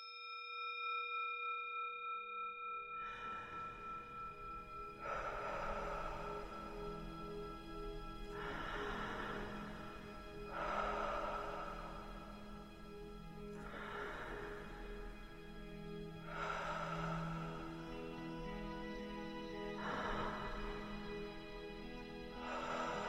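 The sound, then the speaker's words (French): Slow, deep breathing during a meditation exercise: six regular, airy breaths, one every few seconds, each swelling and fading over a steady bed of sustained tones. “Et c'est parti pour 14 respirations.”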